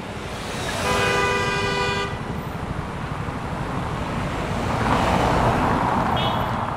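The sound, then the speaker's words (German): Motor traffic on the Champs-Élysées in Paris, a steady roar of engines with a loud car horn sounding for about a second near the start and a brief fainter toot near the end. “Motorenlärm. Das ist der Soundtrack der Champs-Élysées.”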